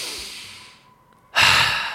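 A deep inhale taken during a guided breathing moment. A soft airy hiss fades out, and after a brief pause a louder, rushing breath starts abruptly and slowly tapers away.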